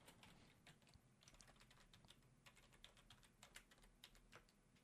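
Someone types a letter on a computer keyboard: a very faint, quick run of many light key clicks at an irregular pace, with no pauses.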